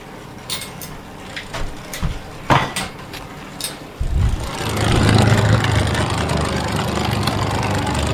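Spinning tops clatter and whir in an arena, starting with a few sharp clicks and knocks. Then comes a louder, continuous rattling spin that keeps going to the end.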